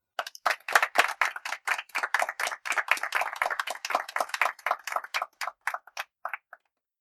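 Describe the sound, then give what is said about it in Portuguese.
Hands clapping in applause: many crisp claps in a quick, fairly steady rhythm that carry on for several seconds, then thin out and stop abruptly, with no talk. “E as palmas vão para...”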